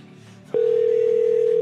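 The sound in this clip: A steady telephone dial tone cuts in abruptly and holds at one unchanging, fairly loud pitch, with faint background sound beneath it.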